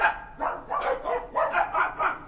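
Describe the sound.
Dogs at a kennel bark in a quick, rhythmic series of several mid-pitched barks with short gaps between them, moderately loud and lively throughout.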